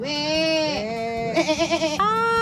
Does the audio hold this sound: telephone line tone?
no